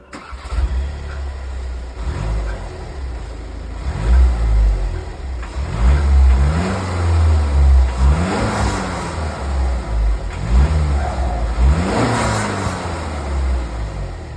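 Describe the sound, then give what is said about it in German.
A VW Tiguan is started with a push button and driven off, the engine catching and then revving in several rising sweeps as it accelerates, over a steady low rumble. “Wir drücken auf den Startknopf und dann fahren wir los.”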